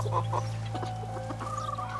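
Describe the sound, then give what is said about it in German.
Clucking from a Paduan bantam rooster and a few hens kept in a garden beside a wooded area: several short, quiet clucks and a drawn-out call over a steady low hum, with no voices. “Hier wohnt Angelina mit einem Paduaner Zwerghahn und ein paar Hennen”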